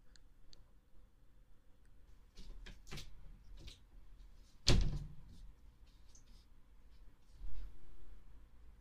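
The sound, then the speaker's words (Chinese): A door closes with one sharp, brief knock-click that stands out in an otherwise quiet scene. A few soft ticks and rustles come before and after it. “我好像听到关门声了。”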